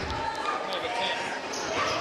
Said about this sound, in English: Jump ball. Oh, okay, jump ball. Tie it up. And Warren County's going to get the alternate possession arrow. They'll inbound it under their basket.